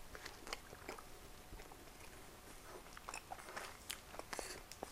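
Quiet biting and chewing of food from a six-piece pack that is past its expiry date: many small crunchy snaps and chewing noises at an irregular rhythm.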